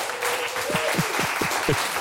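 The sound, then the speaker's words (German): Audience applause as a guest is welcomed onto a stage: continuous, even clapping with a few low thumps scattered through it, moderately loud. “Einen großen Applaus für Bernd.”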